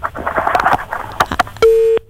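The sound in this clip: A disconnected-line tone sounds as a phone call cuts off: one steady, pure electronic beep lasting about a third of a second. It follows a stretch of talk and scattered clicks.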